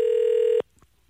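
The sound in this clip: A telephone tone sounds while a call is dialed: a single steady, buzzy beep of just over half a second, then quiet with a faint click.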